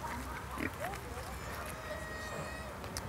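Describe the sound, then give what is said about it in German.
A dog chokes after gulping a treat too hastily during training, giving short, rough, pig-like snorts and gagging grunts in a few uneven bursts. “Tommy, sitz. War zu hastig, hat sich jetzt verschluckt, ne?”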